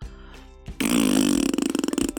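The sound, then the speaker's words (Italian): A horse lets out a long, loud, buzzing fart that holds steady and then breaks into rapid sputtering pulses toward the end. “one of the horses lets out a terrible smelling fart.”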